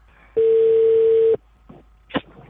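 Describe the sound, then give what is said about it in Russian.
A telephone dial tone sounds while a call is being placed: one steady, even tone holding for about a second and then cutting off, followed by faint, brief noises. “Деда, набери хирургу.”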